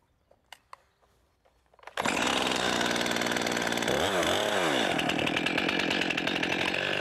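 After a few faint knocks, a chainsaw roars to full throttle while a shingle maker in the Black Forest cuts 40 cm rounds from a smooth tree trunk. The loud, continuous buzzing engine briefly dips in pitch twice, then holds steady.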